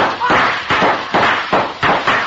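Gunshots crack out in a radio-drama shootout, a rapid series of several sharp, loud bursts, each decaying into a short rough tail before the next.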